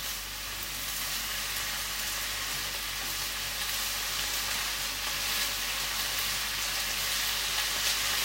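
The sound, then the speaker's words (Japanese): Steady sizzling of vegetables being stir-fried over high heat in a pan, with some water released from the vegetables, a continuous loud hiss and crackle throughout, no talk. “ちょっと強火でガーッとやっちゃおうか。”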